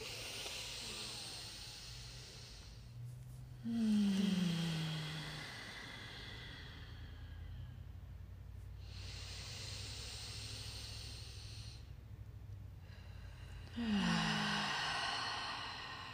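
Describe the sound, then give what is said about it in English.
Deep breaths drawn together by a group during a guided breathing exercise: a few long, soft hissing inhales and exhales, steady and airy, with two slightly louder swells. “taking the three deepest breaths you've taken today. Let's do it together. Inhale.”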